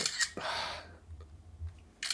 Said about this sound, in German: Ich dachte auf den Lautstärke-Abwärts-Button. Nee, du hast so 20 Fotos auf einmal gemacht gerade.